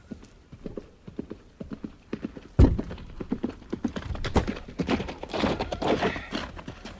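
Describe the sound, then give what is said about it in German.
Horse hooves clip-clop irregularly on a rough, broken street near a city gate, with soft scattered steps giving way to a heavier thud and then a denser, louder run of hoofbeats. “Majestät, hier mein Pferd.”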